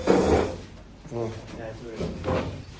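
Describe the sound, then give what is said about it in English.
A door opens at midnight with a short wooden scrape and knock at the start, followed by a voice talking. “It's midnight. I'm going to open the door at least.”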